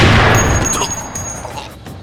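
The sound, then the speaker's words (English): A single sniper rifle shot cracks loudly at the very start, then its boom decays and rumbles away over about two seconds. “The attacker was killed by a sniper before I could find out anything.”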